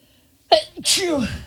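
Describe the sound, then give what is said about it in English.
A person sneezes: a sharp breathy burst followed by a loud voiced release whose tone falls away, all within about a second. “It's a weird time to sneeze. Two sneezes.”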